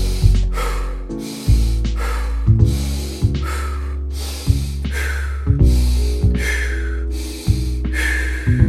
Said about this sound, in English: Inhale nose, exhale mouth. Create this pattern. Begin with me.